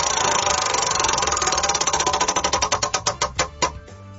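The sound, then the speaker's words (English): A prize wheel spins with a dense rattle of clicks that steadily slow and spread apart into distinct ticks until it comes to rest at the end. “Chrissy, spin the wheel.”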